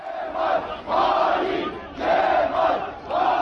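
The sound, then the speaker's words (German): CHP supporters chant in the evening outside the party headquarters in Ankara, a loud crowd repeating a rhythmic shouted phrase in steady bursts of about a second each, with brief dips between them. “Verräter Kemal rufen CHP-Anhängerinnen und Anhänger am Abend vor der Parteizentrale in Ankara. Immer mehr strömen dorthin.”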